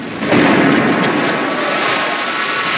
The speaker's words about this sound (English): But there's a flash of white light, and he explodes, leaving behind a charred remnant of his former self.